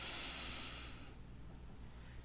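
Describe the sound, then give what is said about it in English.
Deep breathing in and out during a guided breathing exercise: a soft, airy breath hiss lasting about a second, then near quiet, faint overall with no talk. “Inhale and exhale.”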